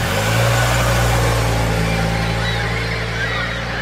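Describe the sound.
A car engine rumbles loudly and steadily as the car turns and pulls slowly away on gravel, giving a deep, even drone throughout.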